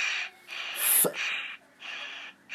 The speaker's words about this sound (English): As it goes, just breathe in and out 5 times heavily.